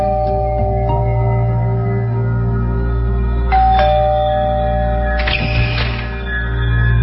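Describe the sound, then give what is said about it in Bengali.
A doorbell rings, its chime tones sounding over a steady low electrical hum, with a couple of brief bright tonal bursts standing out partway through. “দরজায় bell দাও”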